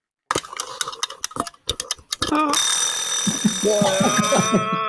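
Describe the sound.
A mechanical wind-up alarm clock is wound and then rings: a series of sharp ratcheting clicks in uneven bursts, then a loud, steady metallic ringing that holds to the end while a voice talks over it.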